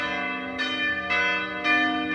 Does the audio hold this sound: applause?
no